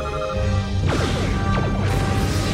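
Starship weapons fire striking a shuttlecraft in Star Trek: The Next Generation: a few loud sci-fi blasts with sweeping, descending zaps and crashing impacts over a constant low drone.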